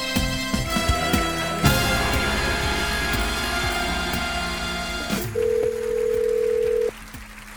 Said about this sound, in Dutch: En gelijk die buitenlandbeltoon, hè? Ja, we bellen met België.